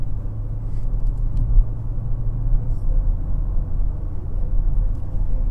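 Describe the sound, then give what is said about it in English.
Car engine running with traction control switched on: a low, steady rumbling drone at an even, moderate level throughout. “All right, we're going to turn the traction control back on. Car is shifting.”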